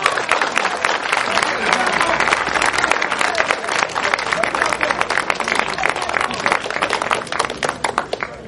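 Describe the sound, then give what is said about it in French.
Church audience clapping and cheering to acclaim the Lord, a dense, rapid patter of many hands with crowd voices mixed in, sustained loudly across the whole stretch. “Acclamons le Seigneur. Amen.”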